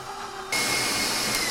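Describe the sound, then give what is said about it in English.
KitchenAid stand mixer with the whisk attachment whipping coconut milk and organic powdered sugar into frosting. A quiet stretch gives way, about a third of the way in, to a sudden loud, steady motor whir that holds evenly to the end. “I'm using the whisk version here on the KitchenAid, which will give it a nice mix.”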